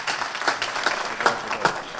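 Audience applause for a rabbi who led the Shabbat prayers: a patter of many hands clapping, with several sharper claps standing out at moderate loudness.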